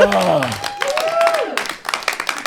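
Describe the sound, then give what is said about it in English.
Audience cheering and applauding: dense, steady clapping with raised voices over it, staying loud for a while, dipping briefly, then picking up again in choppier bursts. “Even the audience cheered for that.”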